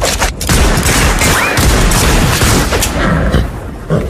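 Gunfire in a film trailer: a dense fusillade of shots and booms merges into a continuous loud, noisy roar with scattered sharper cracks.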